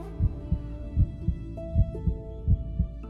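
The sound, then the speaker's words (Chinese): Heartbeat thumping in four double lub-dub pairs at an even pace, low, muffled thuds over a faint steady hum. “良久，不知谁的心跳声打破了沉寂，跳出了劫后余生般的杂乱无章。”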